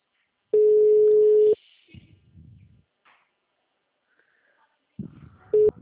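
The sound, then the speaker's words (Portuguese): A telephone tone on a call that cannot be completed because the number is busy: one steady, loud tone lasting about a second, then low muffled sounds, and a short burst of the same tone near the end. “Não foi possível completar a sua ligação. Por favor, verifique o número e ligue novamente. O número está ocupado.”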